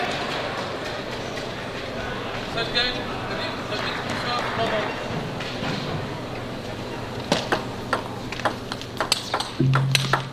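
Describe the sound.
Sharp pings of a table tennis ball struck during a professional match, with a commentator talking over the first part before a quick series of crisp hits and bounces comes through clearly near the end.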